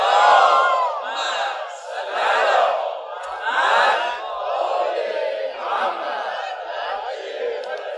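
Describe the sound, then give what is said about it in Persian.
A crowd chanting a loud salawat, an Islamic blessing: many voices swell together in surging waves of communal chant, loud and sustained throughout. “اگه واقعا خسته نشدید یه صلوات بلند بفرستید.”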